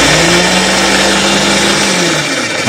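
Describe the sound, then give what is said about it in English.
A food processor runs with tofu inside, giving a loud, steady motorised whir with a low humming drone that holds constant throughout. “I'm sorry, we got it inside of our food processor. Okay, let's we're turn that turn on and see how that goes.”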